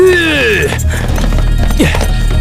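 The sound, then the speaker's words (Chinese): Horse hooves galloping in a fast, pounding rhythm. A descending whinny opens the passage, and the hoofbeats continue loud and steady to the end. “我骑马赶到景阳冈”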